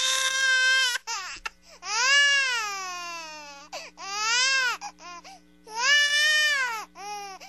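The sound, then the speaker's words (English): Baby crying sound effect: an infant wails in long, loud cries whose pitch rises and falls, with short sobbing breaks between them, for several cries in a row. “Do we have any baby crying music? Maybe baby crying sound effects.”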